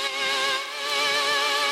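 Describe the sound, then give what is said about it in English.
A synth note pitched two octaves up wavers with a slow, steady wobble, like an eerie 1960s horror instrument. The thin, quiet tone is held throughout. “added some wobble to create a 60s horror instrument kind of thing that sounds like this.”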